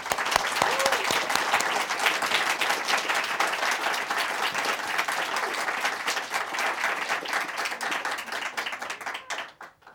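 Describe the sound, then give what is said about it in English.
An audience applauds to welcome congressional debate candidates Rodney Davis and Betsy Dirksen-Londrigan, with dense, steady clapping that holds for several seconds and then fades out at the end. “Our audience has agreed to hold their applause or audible reactions during the debate, except for right now as we welcome our candidates, Republican Congressman Rodney Davis and Democrat Betsy Dirksen-Londrigan.”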